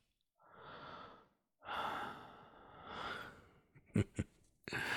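Heavy breathing close to the microphone: three long, breathy exhales separated by brief gaps, then a few short, sharp gasping puffs and another breath at the end, soft and intimate.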